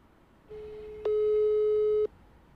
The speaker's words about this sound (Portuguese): Vou tentando ligar aqui pro soldado. Pode ser que esteja fazendo investigação, a noite é foda, né?